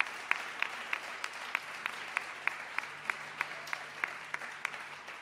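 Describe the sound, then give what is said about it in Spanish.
Audience applause at a religious evening vigil, heard as many evenly spaced claps in a steady rhythm, fairly faint throughout. “Se lo vamos a agradecer y le vamos a dar un aplauso porque ellos lo merecen por lo que han hecho.”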